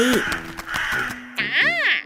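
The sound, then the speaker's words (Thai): A crow caws once, a loud, harsh, arching call that rises and falls, coming right after a voice talking. “เจ้ากาตัวหนึ่งซึ่งอาศัยอยู่ในสำนักและได้บินตามเจ้าชายมาได้ร้องถามขึ้น”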